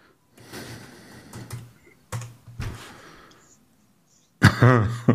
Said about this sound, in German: Oh, ich tipp schon, warte.